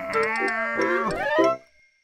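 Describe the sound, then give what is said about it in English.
A cat meows in a vegetable garden: one drawn-out, wavering call of about a second and a half with a rich harmonic tone, shifting in pitch before trailing off into silence. “where is that cat?”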